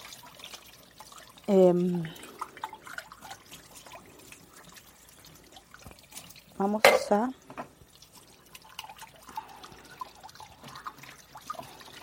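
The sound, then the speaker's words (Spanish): Small cups being washed under running water: a soft, continuous trickle and dripping with two brief, louder bursts of sound partway through. “Vamos a terminar de lavar las tacitas.”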